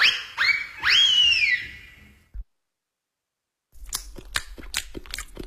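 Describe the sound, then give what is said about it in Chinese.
Crunchy bites of carrot cake being eaten, heard as a few sharp, irregular crunches near the end. Before them come a few short whistle-like tones and then a moment of silence. “你在吃什么？ 嗯，胡萝卜蛋糕。”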